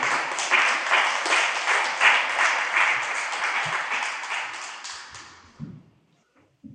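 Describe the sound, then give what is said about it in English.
An audience applauds to welcome a speaker. Many hands clap in a dense, steady wash for about five and a half seconds, then it tapers off to near silence. “Let's put our hands together and welcome.”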